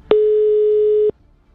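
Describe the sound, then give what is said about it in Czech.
A telephone line tone sounds while a call is still connecting and not yet ringing: a single steady, mid-pitched beep lasting about a second, alone, then silence. “Zatím teda nám to ani nezvoní z nějakého důvodu, ale pořád vytáčí.”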